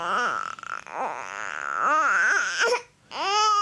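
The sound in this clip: A teething baby cries in long wailing sobs that rise and fall in pitch, loud and continuous, with one brief break near the end before the crying resumes.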